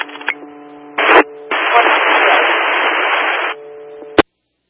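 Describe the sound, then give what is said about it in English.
Police radio static: a short hiss burst, then a longer steady hiss of about two seconds over faint constant tones, ending in one sharp click. No voices. “copy the static”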